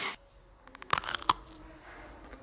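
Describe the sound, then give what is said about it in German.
Someone bites into a Bockwurst sausage with mustard, giving a couple of crisp crunchy snaps amid soft chewing, fairly quiet and with no talk. “Wow, also auf den Sound bin ich echt gespannt. Lecker, mit dem Senf. Ja, lecker so eine Bocki.”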